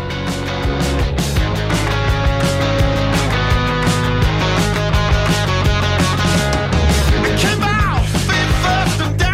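A new rock single plays on the radio. The band mix is full and dense, with steady drums and guitars, loud and continuous throughout.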